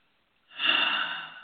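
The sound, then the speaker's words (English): A single deep breath drawn in sharply through the nose, a soft, airy hiss that swells quickly and then tapers, heard alone and fairly faint. “Take a deep breath.”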